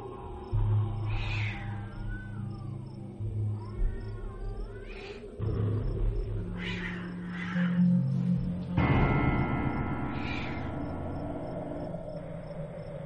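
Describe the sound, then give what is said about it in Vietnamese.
A cat yowls and screeches eerily at night. Several drawn-out, wavering wails rise and fall in pitch over a low, droning backdrop. “Tiếng con mèo kêu thất thanh mang theo một âm điệu rợn người.”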